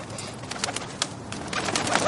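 Pigeons coo at a building construction site, soft low calls that come and go within steady, noisy background sound.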